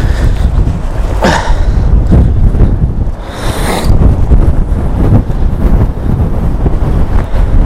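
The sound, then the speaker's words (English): Strong wind buffets the microphone outdoors beside a river, making a loud, continuous low rumble with gusty surges throughout. “it's too windy for this out here.”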